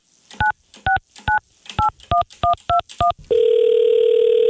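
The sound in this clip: Eight quick touch-tone beeps as a telephone number is dialed, evenly paced, followed by a steady, loud ringing tone for the outgoing call.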